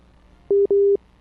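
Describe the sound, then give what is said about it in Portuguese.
A telephone busy tone follows a dropped call: two identical steady mid-pitched beeps, the second slightly longer, sound alone over a faint line hiss. “É, caiu a ligação, Dudu. É, a ligação foi é, sumariamente interrompida.”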